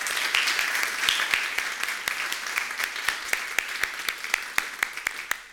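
A church audience applauds a returning parish assistant with steady, moderate clapping, where sharp individual claps stand out in a regular rhythm throughout.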